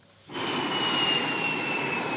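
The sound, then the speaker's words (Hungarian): Gripen fighter jets take off one after another from the military airfield at Kecskemét. A brief quiet gives way to a sudden loud, steady jet roar carrying a high whine. “Egymás után szálltak fel a Gripenek a kecskeméti repülőtérről.”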